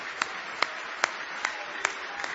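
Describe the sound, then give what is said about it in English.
Congregation clapping hands in praise during a church service: six evenly spaced claps in unison at a steady beat, crisp and moderately quiet. “Now give Jesus one more hand clap of praise.”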